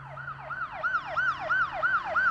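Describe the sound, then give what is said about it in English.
A police siren sound effect sweeps rapidly up and down in a repeating yelp, about seven quick cycles in a row. The wail is shrill and loud, with no voices. “They're here. They've come for you. No, that was just a sound effect. I'm just having a joke with you. I'm not going to be arrested.”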